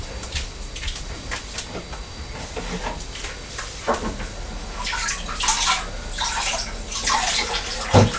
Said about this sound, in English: Just let me wipe the table. Wipe the table. Wash your hands. Do you want your hands washing as well?